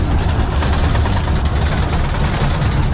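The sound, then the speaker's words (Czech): A 1925 steam locomotive roars steadily from the cab beside the driver, a dense, loud and unbroken rumble with no distinct beats. “Poprvé v životě jedu parní lokomotivou hned vedle strojvedoucího, je to všudy bylka, dopředu koukám malý okénkem.”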